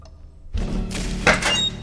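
Heavy thuds of a house's front door being forced open: a deep, dull blow breaks a near-silence, followed by a sharper, louder impact with a brief crack of higher noise, all without voices.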